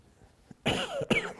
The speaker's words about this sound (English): I have a residual little cough. And I'm trying hard not to cough because it makes everybody nervous.